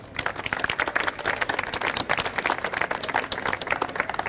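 Audience applause welcomes a guest onto the stage at the live BrainShare conference event. Many hands clap in a steady, busy patter that lasts the whole stretch, with no talk over it.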